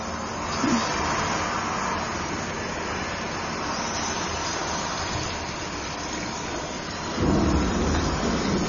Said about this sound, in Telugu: ఒకనాడు వారు మార్గమధ్యంలో ఉండగా కుండపోతగా వర్షం ప్రారంభమయ్యింది.